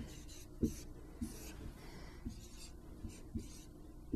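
Someone writing out a row and a column of matrix numbers by hand during a matrix multiplication worked example: faint, soft scratchy strokes with several light taps as each figure is marked, quiet and without talk.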